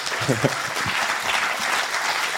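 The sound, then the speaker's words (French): Audience applause for accordionist Roland Romanelli during a French interview: dense, steady clapping from many hands, with a brief voice at the start. “Roland Romanelli, immense accompagnateur durant 20 ans de Barbara, il faut le rappeler. Oui. Qu'on peut applaudir d'ailleurs et qu'on remercie d'être là.”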